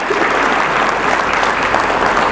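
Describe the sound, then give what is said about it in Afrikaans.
Hand clapping from a church audience, dense and steady applause that fills the whole moment without a break or any talk. “Kom ons gee net vir haar ook 'n ondersteunende hande klap.”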